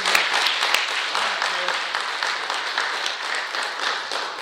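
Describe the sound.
A church audience applauds to welcome a speaker to the front: dense, steady clapping from many hands that holds at an even loudness for the whole stretch.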